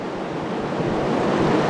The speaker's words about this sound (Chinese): 潮水依然是保持着万马奔腾的气势，在逐渐地向我们的坝身推进。